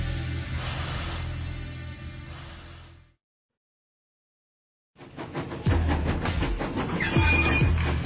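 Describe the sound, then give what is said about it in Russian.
A steam locomotive is set in motion in reverse at a station platform. A steady rumble runs for about three seconds and cuts to silence. Then rattling and heavy rhythmic clanking rise in loudness. “Стронуть паровоз с места было несложно, а вот инерцию я не учел.”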